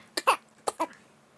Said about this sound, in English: was that a cough fart? Yeah. Did you cough and fart at the same time?